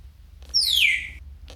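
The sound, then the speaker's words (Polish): A small bird gives a single clear, high whistle that glides downward and lasts well under a second. It sounds alone over a faint low hum. “O. Ptaszek. Taki świst.”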